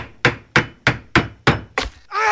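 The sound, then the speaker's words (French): Hammer blows ring out during a house roof repair, six sharp, evenly spaced wooden thwacks in a steady rhythm, each decaying quickly, followed by a sustained tonal whine that carries to the end. “Examinons ce que l'on peut entendre lors d'une réparation d'un toit de maison.”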